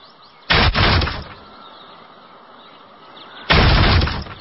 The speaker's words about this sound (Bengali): না, কোনো সমস্যা হয়েছে নিশ্চয়ই, দরজা ভাঙতে হবে।